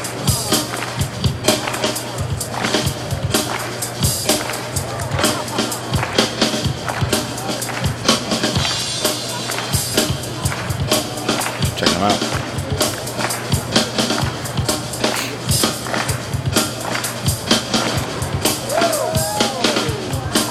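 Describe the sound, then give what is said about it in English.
People at a mall clap together in a loose, uneven rhythm, producing many sharp claps that repeat steadily throughout. “Some people are terrible at clapping in unison.”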